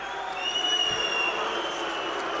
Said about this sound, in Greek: Αποδοκιμασίες ένθεν και ένθεν από τους φιλάλους και του ΠΑΟΚ και της Δυναμό.